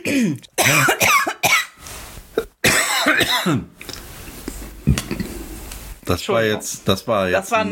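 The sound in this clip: Harsh coughing and throat clearing come from someone who swallowed Prosecco the wrong way, several loud bursts in uneven bouts broken by short pauses, with voices talking between them.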